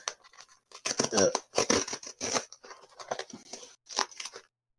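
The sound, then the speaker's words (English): A cardboard box being torn open, a quick series of loud, rasping ripping bursts that come in clusters, with a few shorter tears toward the end. “Or listen to that cardboard tear.”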